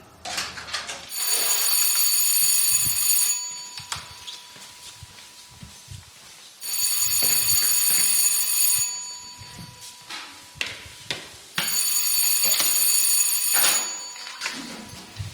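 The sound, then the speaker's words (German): Electric theatre signal tone, the third call summoning the audience to their seats, rings out in three long, loud, bright bursts of two to three seconds each, separated by quieter gaps. “Das war das dritte Tonzeichen.”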